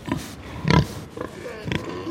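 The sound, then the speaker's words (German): A boar and a sow grunt and snuffle as they sniff each other. Four short grunts stand out, the second one loudest, with soft snorting breaths between them. “Eber und Sau beschnuppern sich. Der Eber riecht stark. Er sabbert. Das gefällt der Sau.”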